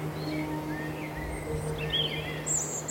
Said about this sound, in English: the birds are still singing their little hearts out